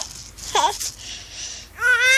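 A baby girl cries in short wailing bursts over a background hiss: a brief wavering cry, then a longer, louder wail.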